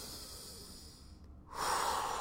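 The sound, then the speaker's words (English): Slow, deep breathing during a guided breathing exercise: a long, soft, airy inhale, a brief pause, then a louder, breathier exhale. It is quiet and heard alone. “Breathe in, breathe out.”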